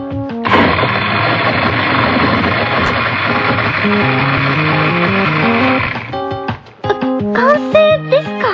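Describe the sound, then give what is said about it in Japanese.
A blender whirs with crab and cola inside, a loud, steady grinding roar that starts abruptly, holds for about five and a half seconds, then cuts off, followed by a few brief tonal notes. “最後、隠し味にコーラを入れて完成です。それではミキサーを回してみましょう。”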